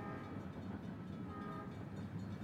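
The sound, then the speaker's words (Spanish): A train rumbles at a state's last railway station, a dead-end terminus where freight trains turn back. The noise is a faint, steady, broad rumble with no clear breaks. “Esta es la última estación de trenes del estado.”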